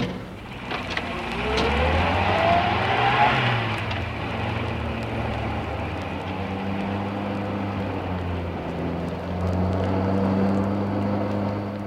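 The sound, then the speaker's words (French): A car drives behind on a Paris street, its engine a steady low drone with a rising whine early on that then settles into an even hum. “Oh, on dirait une voiture derrière nous.”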